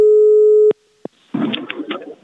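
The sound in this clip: A telephone line tone while calling a farmer to buy eggs: one steady electronic tone that cuts off abruptly, then two short clicks and some muffled noise.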